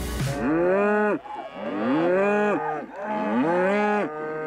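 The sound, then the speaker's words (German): Cattle that live outdoors year-round on pasture around a farm in the Sauerland give three long, loud, low moos one after another, with short gaps between them and no talk. “Die Rinder leben das ganze Jahr über draußen auf Weiden rund um den Hof.”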